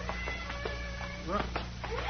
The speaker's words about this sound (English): What's that? It's Corky and his fiddle. He's up there in those rocks somewhere.